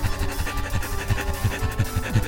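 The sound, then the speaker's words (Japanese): Rapid, rhythmic dog-like panting done as a breathing exercise: a person imitates a dog, with many quick, breathy huffs in a regular beat and no other sound. “それが最初ゆっくりでもいいから犬の呼吸ができるようになったら、今度早く”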